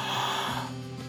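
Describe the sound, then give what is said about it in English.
A deep breath drawn in during a guided meditation, a single airy inhale lasting about a second that tapers off slightly at the end. “Let's draw a couple of deep breaths.”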